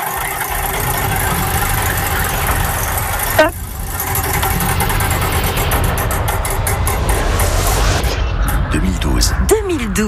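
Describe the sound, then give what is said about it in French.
A prize wheel used in a game to pick a year spins with ticks that spread out as it slows near the end. A loud, dense, steady background sound plays underneath. “Je vais lancer la roue du temps”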